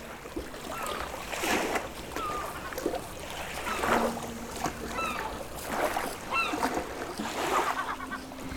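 Sea waves washing in a slow, steady rhythm at sunrise, with repeated short bird calls over the broad wash of water.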